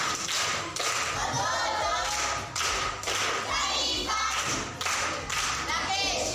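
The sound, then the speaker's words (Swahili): Children at Nyasura primary school clap in a group rhythm to salute an aunt. Loud bursts of hand claps and thumps recur at a regular pace of about one per second, with children's voices mixed in. “Makofi kwa shangazi.”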